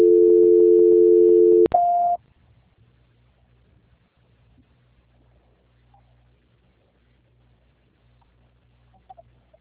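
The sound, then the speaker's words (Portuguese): Telephone call tone for a call that goes unanswered, a steady, loud low tone lasting about two seconds, cut by a click and a brief higher tone, then near silence. “Já falou, já digitei, sendo que O problema é que eles ele não não estão atendeu. atendendo.”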